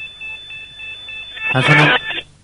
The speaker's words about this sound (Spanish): Están sonando los volumétricos.